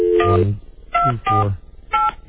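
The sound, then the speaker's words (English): Telephone keypad tones as a number is dialled to reach a warm line: four short, clear two-pitch beeps in an uneven rhythm, heard alone. “Mike and Rob, if you would both, after I dial, please pick up the warm line.”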